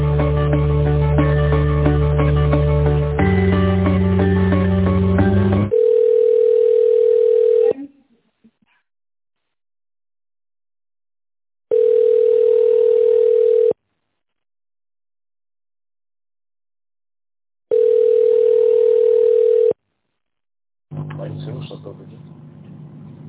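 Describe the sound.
Telephone line tone while a call is transferred: a short melody gives way to three evenly spaced, steady mid-pitched tones of about two seconds each, separated by silence, before other sound resumes.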